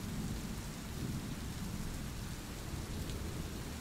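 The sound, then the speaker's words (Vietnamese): Heavy rain pounds on a roof with thunder, forming a steady, dense, loud roar with a deep rumble running beneath it the whole time. “rồi biến mất theo tiếng mưa ầm ầm dội vào mái nhà.”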